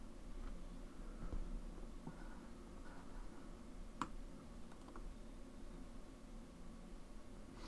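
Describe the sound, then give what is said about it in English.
Faint computer mouse clicks while someone works through admin and active user settings: a few soft, sparse clicks over a quiet hiss, one sharper and more distinct than the rest. “I need to click admin. And users. I need my active users.”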